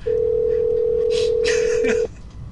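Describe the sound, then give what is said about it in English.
A telephone call rings out on the line as one steady, mid-pitched ring tone lasting about two seconds, then cuts off sharply, leaving only faint noise. “All right, we're going to call her back. Hopefully she answers.”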